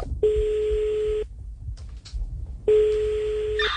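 Telephone tones as a call is placed to a building: two long, steady, clear beeps of about a second each, separated by a pause filled with faint brief blips.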